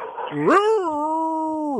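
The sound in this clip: A dog gives one long, loud whining howl during a phone call. It rises in pitch, holds a steady tone and then cuts off abruptly after a brief voice at the start.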